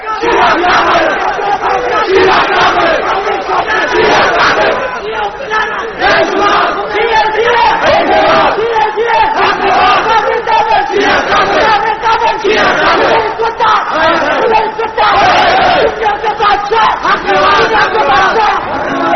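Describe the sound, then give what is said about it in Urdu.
A crowd chanting slogans at a speech, with many voices shouting together in a loud, continuous mass that barely drops for the full length, with only brief dips between chants. “کچھ مجھے بھی کہنے دیں، میرا وقت نعروں ہی میں نہ لگ جائے”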